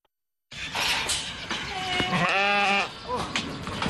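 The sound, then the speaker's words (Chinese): Sheep bleat in a pen of well-fed sheep on a village farm, with one clear, wavering, nasal bleat in the middle over a steady, noisy farmyard background. “村民庄明亮家的羊圈舍里羊群个个膘肥体壮”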